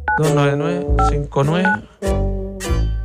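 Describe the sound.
Telephone keypad DTMF tones sound as a number is dialed, short steady beeps under people talking loudly over them.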